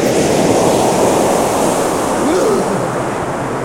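A big ocean wave crashing: a loud, sustained roaring wash of surf that continues throughout and eases slightly toward the end.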